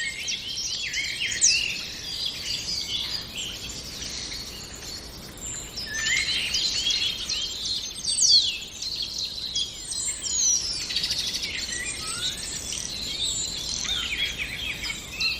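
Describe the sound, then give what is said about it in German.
A common starling sings a varied stream of high whistles, chirps, crackles and rattles, mimicking other birds including a blackbird, in continuous phrases of fairly even loudness. “Da diese hohen Pfiffe. Piep. Dieses Knistern und Knattern, all das ist Star. Der Star unter den Vögeln, weil er so viele Stimmen imitieren kann.”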